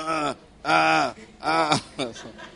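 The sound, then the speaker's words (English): Groaning voices rise during prayer, a few long, low moaning tones, each drawn out and loud, with short pauses between them. “After you have done intercession and prayers, you now do what? Groaning. Say, brethren, it is time to groan.”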